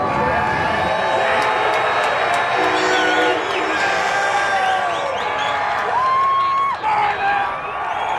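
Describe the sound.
A crowd cheers and chatters at the Burning of Benedict Arnold Festival in New London, a steady wash of many voices with scattered whoops and shouts.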